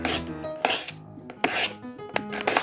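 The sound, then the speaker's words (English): Knife slicing raw potatoes for chips: several crisp, scraping cutting strokes at an uneven rhythm, fairly quiet, with no talk. “to make my chips, I first have to slice potatoes.”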